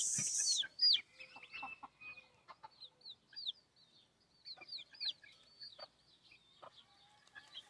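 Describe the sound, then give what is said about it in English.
About eleven chicks peep in a shaded nursery pen. Many faint, high chirps come in scattered bursts, some clustered closely together, others spaced apart. “It's kind of the nursery. I'm got a nursery going on here. Okay. Like 11 chicks.”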